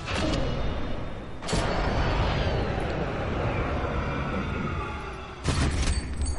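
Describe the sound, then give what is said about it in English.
A slow-motion bullet gunshot from the film Bad Boys: a loud, drawn-out rumbling whoosh with a broad roar that swells and fades, broken by two sharp bursts, one early and one near the end. “This is a slow-mo bullet. It's just kind of new to when this movie came out. Takes a chunk of his ass.”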